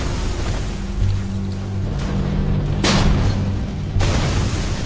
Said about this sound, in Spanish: Es probable que sea un Stuck 3, un vehículo de combate blindado construido sobre el chasis de un Panzer, ya que el cañón no rota. Aún así lanza una descarga mortal.